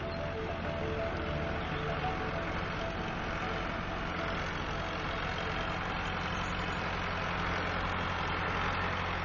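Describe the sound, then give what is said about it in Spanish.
A tractor engine runs near fields, a steady low droning hum with a constant rumbling tone that holds at an even level throughout, with no clear change in speed. “Sin ser visto y aparentemente impávido ante el ruido de un tractor.”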